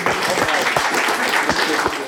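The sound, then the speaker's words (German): Applause from a live quiz-show audience, dense steady clapping that fills the whole moment, with voices mixed into the noise. “Einmal Applaus für dich.”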